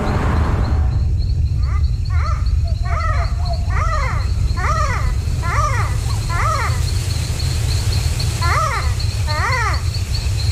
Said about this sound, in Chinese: 这是鹰猴的声音，它是一种小型灵长目动物。